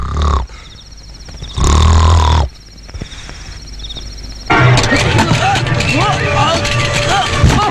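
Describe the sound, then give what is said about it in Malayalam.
A vehicle's engine roar swells to a loud, dense rumble partway through and holds steady to the end, following quieter, intermittent sounds earlier on. “വണ്ടിയാ.”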